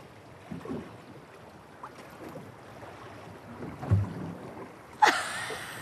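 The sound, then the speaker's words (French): A pulsed sound played underwater and picked up by a hydrophone breaks in abruptly near the end as a bright, buzzy burst. Before it, only low, rumbling water noise is heard. “Allez, son pulsé 6 encore. Vas-y, refais. T'enregistres, hein, l'hydro.”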